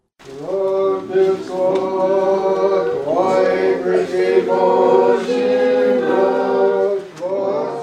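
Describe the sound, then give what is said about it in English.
Voices singing together at an Orthodox Christmas celebration in St. Sergius and Herman Church in Nanwalek, an Alaska Native village on the southern Kenai Peninsula. The sustained choral melody carries on with only brief breaths between phrases. “That's the sound of people singing in celebration of Orthodox Christmas at the St. Sergis and Herman Church in Nanwalik.”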